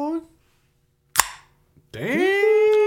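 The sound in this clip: A pool break shot lands as one sharp crack with a short decaying tail, set between stretches of talk.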